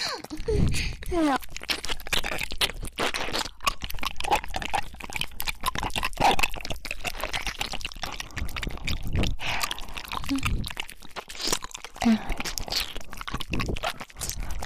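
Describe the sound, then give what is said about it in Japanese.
Wet ASMR ear-licking mouth sounds play on both sides at once, a dense, continuous stream of soft smacks, slurps and clicks with steady rhythm and moderate loudness. “どう？左右同時の耳舐め効くでしょ。”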